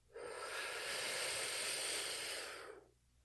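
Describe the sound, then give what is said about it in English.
One long, deep breath comes as a steady, airy hiss that swells quickly, holds for over two seconds, then fades away, with no talking. “So let's go ahead and take one more deep breath in.”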